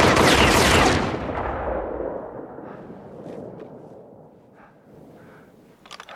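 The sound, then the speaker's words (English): Gunfire aimed at a figure walking down rocks: a loud, dense burst of shots that fades into a lingering rumble, followed by a few fainter sharp cracks near the end. “And then he's fired upon.”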